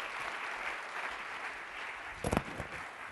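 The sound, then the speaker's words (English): An audience gives a round of applause to welcome a guest onstage at a Traverse City event. The clapping is moderate and steady, with a brief cluster of sharper, louder claps near the end. “if you'd join me in a round of applause to welcome Sarah”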